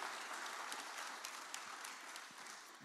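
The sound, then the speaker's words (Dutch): Warm applause at a church service welcomes a guest's wife as she stands, a steady, faint wash of many hands clapping that thins slightly toward the end. “Christa, ga ook even staan, zullen we haar ook even, even een warm applausje geven van welkom.”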